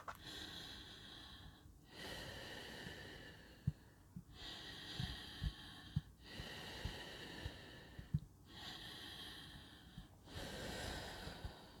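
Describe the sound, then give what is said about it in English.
Slow, deep breathing, soft and airy, runs in a steady cycle of long breaths roughly every two seconds, with faint snorting clicks and brief pauses between each breath. “just breathe with me, okay? Let's just breathe for a minute.”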